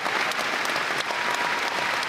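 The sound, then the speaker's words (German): A concert-hall audience gives a standing ovation after a concert performance of a musical in Lübeck: dense, loud, continuous clapping with no break from start to finish. “Und vor ihm ein Saal, der steht und jubelt.”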